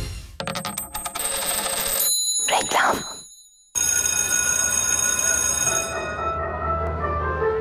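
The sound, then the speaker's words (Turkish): A school bell ringing loudly with bright metallic harmonics, cut by a short break with a whooshing sweep, then resuming as a long sustained ring whose tones die away near the end. “Güzel çalıyor değil mi? Ya insanın içine huzur veriyor. Anne babaların bu ara en sevdiği parça okul zili.”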